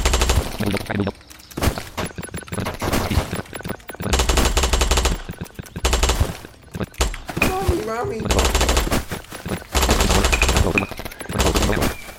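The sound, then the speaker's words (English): Rapid automatic gunfire in a video game: loud, dense bursts of machine-gun fire repeating throughout, separated by brief gaps. “You shot at me, man.”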